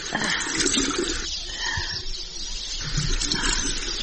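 Water splashing as a child's face is washed by hand, a steady gushing wash that dips briefly in the middle and then resumes, with no voices over it.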